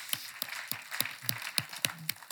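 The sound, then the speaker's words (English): Rhythmic clapping from an audience at an Easter church service: sharp, evenly spaced claps at roughly three per second, keeping a steady beat through the whole stretch at moderate volume. “Amen? Amen. And this is Easter. Amen. Clap again.”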